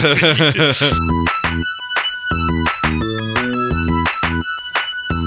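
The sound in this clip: Upbeat theme music from a Barbie movie plays loud and bright, with rhythmic synth chords and ringing tones pulsing in a steady, driving beat.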